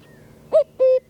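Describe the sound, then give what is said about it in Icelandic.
A common cuckoo calls its two-note song, a short higher note followed by a longer, slightly lower one, clear and loud against a quiet background. “hann heitir á latinu Cuculus Canurus og það tala Cucu.”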